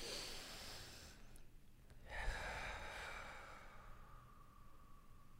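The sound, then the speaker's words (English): A deep, audible breath, long breathy airflow noise lasting several seconds, broken by a brief pause partway through. “Deep breath. Yeah, I'm definitely nervous to do see an her. Actual deep breath.”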